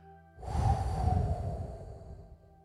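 A huge breath is let out after a deep held breath during a guided breathing exercise: one long, airy, breathy exhale that starts suddenly, stays fairly loud, then slowly fades over about two seconds, with no talk.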